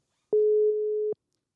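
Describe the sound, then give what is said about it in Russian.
A telephone ringing tone sounds as a call goes through: a single steady, low-pitched beep lasting under a second, clean and alone, followed by silence. “Ну что, набираем? Да. Набираем. Сейчас. А, звонок идет.”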